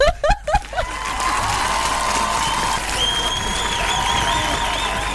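Applause from a live audience in a studio show. It opens with a few sharp claps, then swells into sustained clapping and cheering that stays even to the end.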